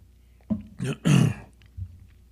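Throat clearing from allergies and a congested throat: a few rough, guttural bursts, the longest and loudest in the middle, followed by a softer final rasp.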